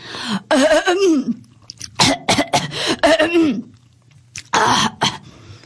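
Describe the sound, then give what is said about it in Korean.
A voice performs throat clearing: several rough, voiced bursts separated by short pauses, with a final sharp burst near the end. “헛기침을 하면서 괜히 목소리를 가다듬어 보았어요.”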